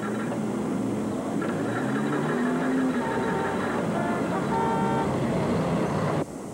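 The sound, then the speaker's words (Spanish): A car horn honking in traffic, with a few held, brassy tones rising over a dense wash of engine and street noise, and some talk mixed in. “¡No me toques la bocina, maldito desconsiderado!”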